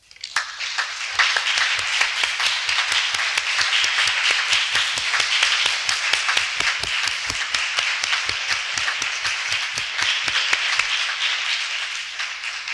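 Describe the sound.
Audience applause after an academic lecture. Many hands clap in a sustained, even patter that begins abruptly and holds steady for about twelve seconds, thinning only slightly at the close.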